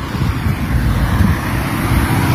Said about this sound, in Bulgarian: Ей сега тези коли ще се махнат.